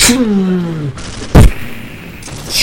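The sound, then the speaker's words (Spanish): A sharp, loud blast of cartoon gunfire from a character shooting from its eyes, heard as a single brief burst after a sustained tonal sound. “El cacarioca encendió sus ojos porque tenía más de una sorpresa escondida. Y empezó a disparar por los ojos.”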